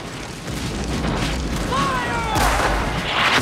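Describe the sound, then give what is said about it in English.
Confederate cannons fire during a Civil War battle, tearing into earth and trees with deep rumbling booms and a heavy blast partway through. “Confederate soldiers fire cannons in their direction. The blasts rip through the earth and the surrounding trees, raining clods of dirt upon them.”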